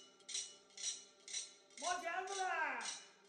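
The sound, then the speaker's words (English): A street knife sharpener clanks his steel plates to announce his arrival, sharp metallic clinks repeating about every half second, while a drawn-out, wavering vocal call rises over the clanks partway through. “One that does live on is the knife sharpener's cry and the clanking steel plates that the sharpeners use to announce their arrival.”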